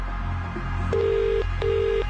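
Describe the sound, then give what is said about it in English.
Ringback tones from an outgoing telephone call: two steady, mid-pitched buzzing rings, each lasting about half a second with a pause between them, over a low constant hum. “We're making this call right now. And you need to answer within 5 rings.”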